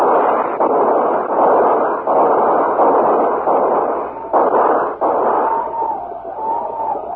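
A rifle volley fired during a frontier battle against attackers on horseback: dense, booming reports merge into a loud, continuous roar, with a few sharper bursts standing out, and no talk over it.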